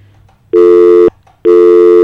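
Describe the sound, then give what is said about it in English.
Telephone line tones sound on an incoming call to a call-in phone line: two loud, steady buzzy beeps, each about half a second long, separated by a short gap, with a faint low hum before the first. “I'm getting a call coming in, but nothing but a dial tone.”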